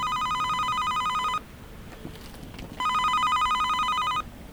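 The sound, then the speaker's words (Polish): An apartment-block intercom rings after a flat number is dialled: two long, bright electronic ring tones, each about a second and a half, separated by a short quiet pause. “Wybierz numer lokalu, po 3 sekundach otrzymasz połączenie.”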